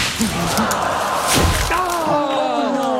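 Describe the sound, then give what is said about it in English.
A golf ball slices into trees in a golf video game, giving a dull thud with crackling, branch-like impacts over a steady wash of outdoor ambience. “Lines up his shot and slicing into some trees”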